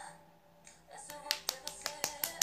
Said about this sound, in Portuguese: Tô batendo palma.